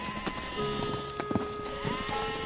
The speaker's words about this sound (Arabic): أحضرت طعام العشاء لسيد الملك، عجل سمين وثلاثة خراف كالمعتاد.